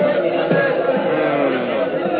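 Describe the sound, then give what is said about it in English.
Murmur of a crowd gathered in the street below, a steady blended chatter of many voices without distinct words. “Ay, look out the window, Señor Capitán. There is a crowd of people below in the street.”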